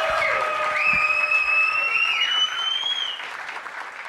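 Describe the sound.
A comedy show audience applauds and cheers, with steady loud clapping and shrill whistles rising above it. The applause eases slightly toward the end.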